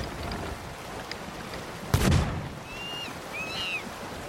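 Fireworks go off in a video game: one sharp, crackling burst, then two thin whistling tones, all over a steady background hiss.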